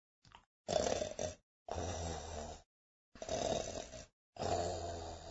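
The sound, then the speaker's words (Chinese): Soft snoring of a little bear asleep in its tree hollow: four slow, rough, breathy snores at an even rhythm, quiet and alone, after a faint short breath. “那是小熊轻轻的呼噜声”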